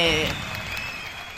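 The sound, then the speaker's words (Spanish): A short burst of applause, faint and continuous. It follows a brief voice at the very start and tails off slightly toward the end. “Volvió Planta, mirá los aplausos.”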